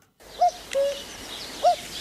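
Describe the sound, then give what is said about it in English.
A cuckoo gives its two-note call, a soft pair of clear tones with the second lower. The call repeats faintly over quiet background hiss. “Listen to the birds sing. You only need to hear it once. That two-note cuckoo call lives on in the dance of the cuckoos”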